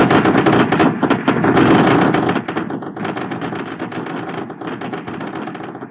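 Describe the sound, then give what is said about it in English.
Massed gunfire from thousands of bullets in a battle forms a dense, unbroken rattle that is loud at first and then settles to a slightly lower, steady roar with no pauses. “The thunderous sound of thousands of bullets fired”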